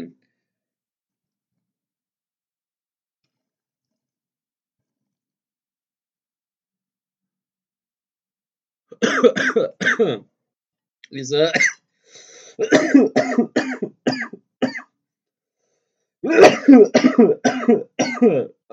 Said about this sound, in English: Let me take a bong rip real quick for you guys. Yeah, grab a lighter.